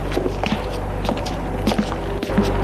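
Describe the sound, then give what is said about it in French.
Footsteps on cobblestone pavement tap in a steady walking rhythm, several firm footfalls over a constant background hum, with no voices. “On entend ses pas sur le pavé. Tout à coup, elle entend des pas derrière elle.”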